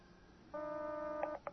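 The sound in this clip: Touch-tone telephone dialing tones: one sustained electronic tone is followed by two brief beeps, all fairly faint.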